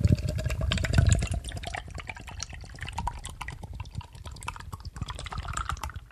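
Pear juice pours in a steady liquid splash with many small drip-like ticks, fullest in the first second and then a bit quieter and even. No voices are heard.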